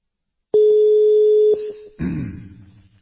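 A telephone call ringing out gives a steady single-pitched electronic tone that holds for about a second, then carries on more quietly before a broader, fading burst of sound cuts in.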